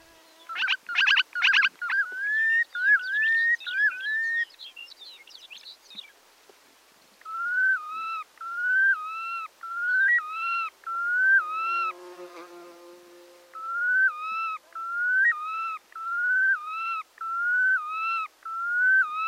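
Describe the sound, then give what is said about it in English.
Red knot display flight calls over Arctic tundra: many clear whistled notes, each with a rising sweep, repeated in a long rhythmic series with short gaps, opening with a brief rapid buzzy burst. “to me, this is one of the most beautiful sounds that I've ever heard in the Arctic, hearing this haunting kind of melancholy call of the red knot over the tundra.”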